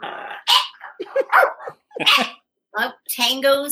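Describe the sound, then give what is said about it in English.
A pet dog barking in several sharp bursts, with people talking around it. “We're dog sitting Tango for Elmo.”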